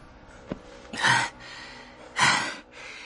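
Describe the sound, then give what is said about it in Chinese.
Two exhausted men pant for breath while leaning against a wall. Two heavy, breathy gasps come a little over a second apart, with softer breathing around them. “两个人都累了，撑着墙气喘吁吁。”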